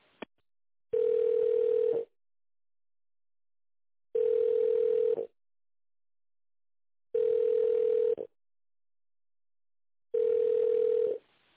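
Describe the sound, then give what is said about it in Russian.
Telephone ringing tone on a line while a business call is transferred to a colleague: a faint click, then four long, steady tones at an even rhythm with silent gaps between them. “Смотрите, сейчас вас соединю с человеком, который этим занимается по тендерам.”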